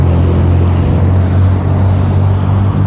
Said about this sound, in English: There's this Porsche though right here that drives by. That's totally just like raced out.